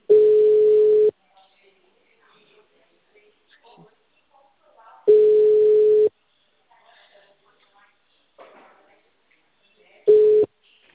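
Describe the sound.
The ringback tone of an outgoing telephone call sounds as three steady one-second beeps, evenly spaced about four seconds apart. Faint scattered background noises fill the quiet gaps between them.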